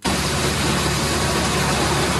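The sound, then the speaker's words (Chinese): Steady, loud engine roar of a combine harvester working at full power in a ratoon rice field in Langxi County, Anhui, while cutting, threshing and loading grain. It is a dense, unbroken drone with no talk. “收割机开足马力穿梭，切割、脱粒、装车一气呵成。”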